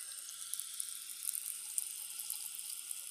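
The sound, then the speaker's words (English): Water runs from a timed museum bathroom faucet with aerating jets that mix air into the flow, producing a faint, even, airy hiss that continues without a break. “The faucets in the museum also help conserve water.”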